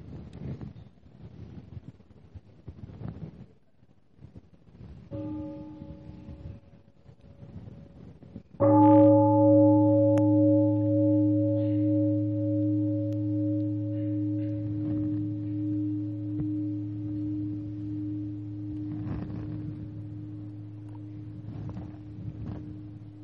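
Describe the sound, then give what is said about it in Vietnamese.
Meditation bell during a Buddhist sitting meditation: a softer tone first, then one full strike that rings with a deep, rich sustained tone and fades slowly over many seconds, with faint rustling around it. “mình nghe một tiếng chuông rồi mình tiếp tục.”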